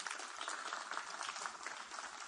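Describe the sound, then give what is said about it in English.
A standing church audience gives a clap offering, with a steady, moderately quiet patter of many hands clapping continuously. “Stand up this morning. Would you give him a good clap offering?”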